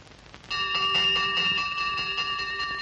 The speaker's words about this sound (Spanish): Una monja toca la campana del pasillo.